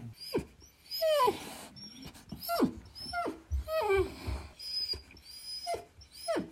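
A dog makes many short, high-pitched whimpers and yelps, some sliding downward in pitch, mixed with low growly grumbles. The sounds come in uneven bursts, fairly quiet, with no talk.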